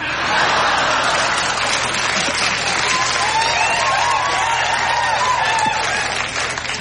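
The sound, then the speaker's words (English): Party crowd noise coming down a phone line from Paris, a loud, steady roar of cheering and clapping that fills the whole stretch without letting up. “We're having a bit of a party here, in Paris.”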